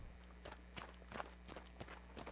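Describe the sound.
Footsteps of people hurrying through deserted streets in a radio drama. Many brisk, regular steps fall at a quick walking pace, moderately loud, over a steady low hum.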